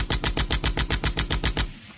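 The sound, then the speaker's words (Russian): Long rapid burst of cannon fire from a rusty nose turret with a single surviving gun, a dozen or so loud, evenly spaced booming shots in quick succession that stop abruptly, leaving a brief fading tail. “Еще секунда, и она открыла огонь.”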